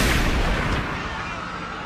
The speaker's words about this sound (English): He didn't hesitate. He pulled the trigger of his shotgun.